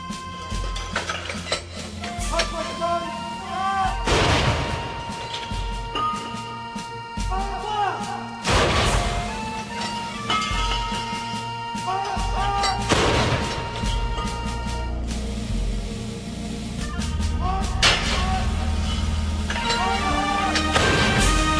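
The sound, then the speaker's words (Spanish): Cannon salvos fired from the bastions of Edinburgh Castle in Scotland: three heavy booms about four seconds apart, each a sharp crack with a rumbling tail, rising above continuous music. “La fuerza de la tradición, que en Edimburgo se venera con orgullo, se materializa todos los días de forma espectacular en la capital escocesa con las salvas de cañón disparadas desde los bastiones del castillo de la ciudad.”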